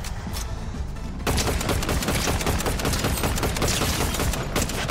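Gunfire in a video game: after a quieter moment, dense, rapid shots break out suddenly and stay loud and continuous to the end.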